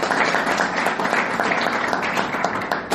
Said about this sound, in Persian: خودتون تشویق کنید